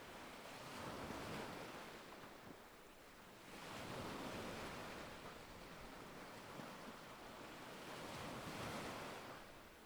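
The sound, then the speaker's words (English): White foaming waves crash onto a black sand shore, a broad hissing surf that rises and falls in a few slow surges with brief lulls between them, steady and fairly loud throughout. “Starkly contrasting with the white foaming waves crashing onto the shore.”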